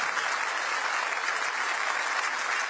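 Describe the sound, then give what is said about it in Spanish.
A church audience applauds, a continuous dense patter of many clapping hands that stays steady and fairly loud from start to finish. “Dele fuertes aplausos a Él.”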